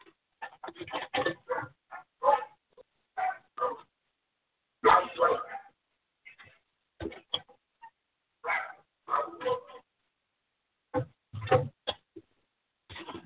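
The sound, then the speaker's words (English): A dog barking loudly in many short, irregular bursts separated by brief quiet gaps. “that dog barking in my ear was extremely loud.”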